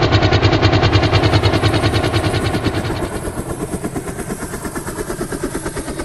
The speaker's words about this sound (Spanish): Sí, exacto, vamos en helicóptero. Vamos, suban.